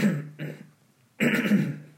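Harsh coughing and throat clearing from a man with something stuck in his throat: three gravelly bursts, the last longer and loudest, with no talk.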